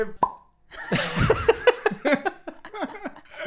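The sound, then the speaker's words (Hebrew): A champagne cork pops from a small mini-bar bottle, one sharp plop near the start, followed by lively voices. “אז בואו נפתח את השמפניה ונתחיל ב...”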